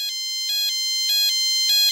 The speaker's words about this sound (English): So I fired up my third generation iPod with its, you know, one-off red buttons and recorded what that alarm sounded like here.